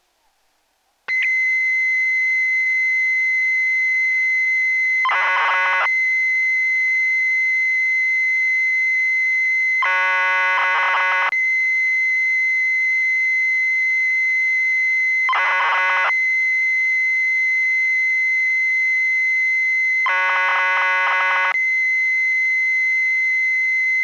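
A Nintendo data recorder cassette tape plays its data tone while BG data loads: a loud, steady high whine runs throughout, broken by four bursts of dense, buzzy, harmonic-rich tones at roughly even intervals.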